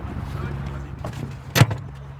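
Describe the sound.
A single sharp thump and clunk as someone climbs into a golf cart on a golf course, breaking a low steady rumble for a moment before it settles again.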